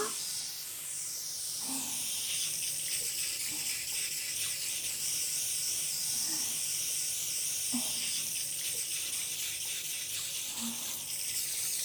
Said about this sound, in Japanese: 流してくよ。